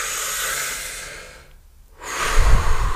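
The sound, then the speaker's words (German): A deep breath taken while seated during a calm relaxation exercise: a long, airy breath, a brief silent pause, then another long breathy stream of air, loud and alone. “einmal tief ein- und ausatmen”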